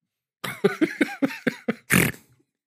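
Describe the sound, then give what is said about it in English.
A person snorting loudly right up against a microphone: seven quick nasal bursts in a row, then one longer, harsher blast, all close and loud with no words. “Sorry, you're gonna have to cut that snort. No, leave the snort in. That was awesome. I was right up in the mic.”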